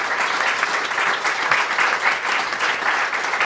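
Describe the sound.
Audience applause at a live panel event: dense, steady clapping from many hands that stays loud and even throughout, with no voices over it.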